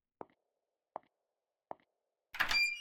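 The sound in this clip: Three sharp, evenly spaced knocks ring out, followed by a brief rattling, scraping burst as a door is opened.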